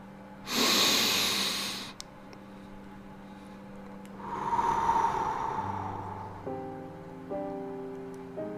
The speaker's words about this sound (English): I want you to breathe through your nose and exhale through the mouth.